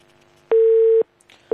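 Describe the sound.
A telephone call tone sounds as a steady, mid-pitched beep lasting about half a second. A pause follows, then the same tone starts again and is cut off.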